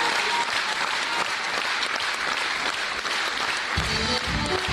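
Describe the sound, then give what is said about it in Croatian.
Sustained applause from a concert audience, a dense and steady wash of many hands clapping at once, loud and unbroken throughout. “čujte i vi premijerno delić tog velikog aplauza”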